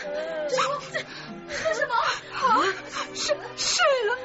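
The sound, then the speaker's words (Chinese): People crying for a child thought to be dead: overlapping whimpers, sobs and wavering wails rise and fall in uneven bursts, fairly loud and continuous throughout. “各位朋友，你们不要难过，不要这样哭”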